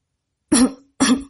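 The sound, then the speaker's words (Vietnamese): Two short, dry coughs come from a person in an inn, each a sharp harsh burst with a brief rasping tail, separated by a moment of silence. “Đoạn Bạch Nguyệt trong khách điếm ho khan”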